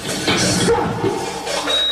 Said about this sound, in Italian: io un tempo ascoltavo il Japanoise, rumorismo giapponese. Allora, il Japanoise, come suona più o meno il